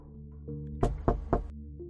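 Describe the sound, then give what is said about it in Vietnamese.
Three dry knocks on a door at midnight, evenly spaced and fairly sharp, sounding over a low, sustained droning tone. “Vẫn không có tiếng trả lời, mà chỉ có ba tiếng gõ cửa vang vọng ra, nghe khô khốc ớn lạnh.”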